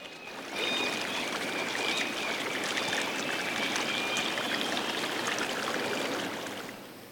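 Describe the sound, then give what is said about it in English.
A river flows past a kayak with a steady rush of water. The sound fades in over the first half second, holds evenly, and tapers off at the end. “sets the kayak on down the river”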